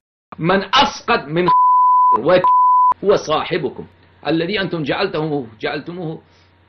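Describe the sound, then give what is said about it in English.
Censor bleeps over offensive words: two flat, steady pure tones, each about half a second long, cut into a speaking voice, with talk before, between and after them. “The insult is so great that we bleeped out the actual words used.”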